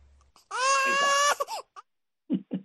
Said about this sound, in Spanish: El baby que llora afinado, el único baby que llora afinado acá.